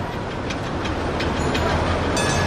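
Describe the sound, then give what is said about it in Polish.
A tram pulls up at a terminal loop with a steady, fairly loud rumble of wheels on rail. Faint rhythmic clicking and a thin high whine run through it. “Parę minut po 10:00 na pętle podjechał tramwaj i wyskoczył z niego Wasy Łyszyn.”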